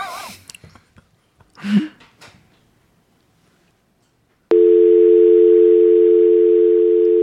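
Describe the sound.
A telephone tone cuts in abruptly as a loud, steady, unbroken beep that holds to the end, after several seconds of faint rustling and breathing noises.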